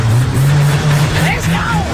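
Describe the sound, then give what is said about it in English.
Mini stock race car engine revving on the gas, a loud rough drone that holds and surges while people talk over it. “Leighton, now, this is your car. Yes, this is my mini stock. On the gas? Yep.”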